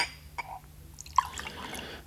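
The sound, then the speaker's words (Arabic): Tea poured into a cup gives faint trickling and dripping with a few small, sharp splashes, scattered unevenly rather than a steady stream, with no voices. “صوت صب الشاي في الفنجان يهدئ الأعصاب للغاية.”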